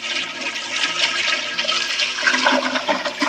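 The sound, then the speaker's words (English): Toilet flushing, water rushing and gurgling down the bowl in one loud, continuous roar that holds steady for about three seconds with no other sound. “see, that's a successful flushing sounding noise of the water successfully going down the toilet.”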